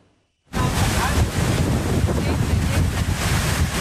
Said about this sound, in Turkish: Fırtına ve hortum önüne kattığını savurdu.